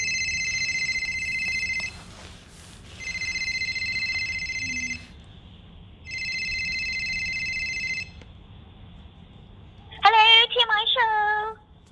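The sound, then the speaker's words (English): A telephone rings with three long, steady electronic trills separated by short pauses over a faint background hiss, followed by a brief burst of a voice at the end. “So let's just ring her up.”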